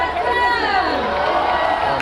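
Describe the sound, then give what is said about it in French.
Cycling fans of Tadej Pogacar chant together in Barcelona around the start of the Tour de France. Many voices sing in a loud, sustained chorus over general crowd noise. “les fans de Tadej Pogacar avaient toujours de la voix hier à Barcelone. Depuis son arrivée en Espagne, le Slovène fait chanter le public.”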